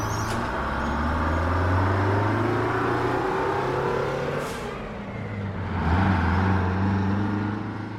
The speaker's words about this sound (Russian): Парень вошел в автобус. И он уехал по дороге.